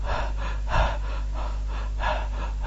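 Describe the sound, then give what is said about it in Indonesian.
A voice imitates heavy panting, as of someone breathless after rushing to the mosque: a run of quick, rhythmic, breathy gasps at a steady moderate level, with no words spoken. “terganggu kamu karena ini cepet-cepetan datangnya ke masjid, datang terengah-engah”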